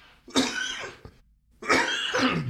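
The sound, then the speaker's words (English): Two harsh coughing bursts from a person, each a loud, rough, breathy blast separated by a short quiet gap. “and that's me coughing”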